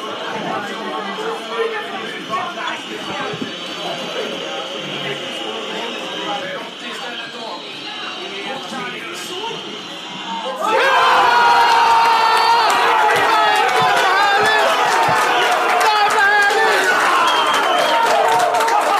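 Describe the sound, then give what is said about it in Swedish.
Pub crowd at The Flying Horse watches a Roma penalty in a Champions League match against Liverpool: steady murmuring chatter, then a sudden loud eruption of cheering and shouting that holds to the end. “Hur var stämningen på The Flying Horse i det läget, undrar ni förstås? Så här lät det när den straffen skulle slås.”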